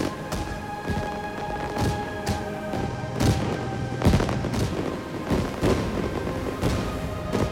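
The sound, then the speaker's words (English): Fireworks explode overhead in many sharp, loud bangs at an irregular pace, with a crackling wash between them. “Fireworks explode over Valentina's head.”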